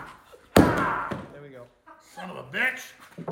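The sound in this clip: A gun hard case being smashed open: one heavy, sharp bang, followed by a man talking.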